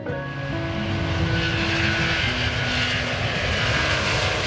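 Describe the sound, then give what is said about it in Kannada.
Steady, loud drone of an airplane engine passing overhead, holding an even roar for the whole clip with no voices. “ಸದ್ಯ ಆಗಲೇ ಆಕಾಶದಲ್ಲೊಂದು ನೇರಳೆ ಬಣ್ಣದ ವಿಮಾನ ಹಾರುತ್ತಾ ಬಂತು.”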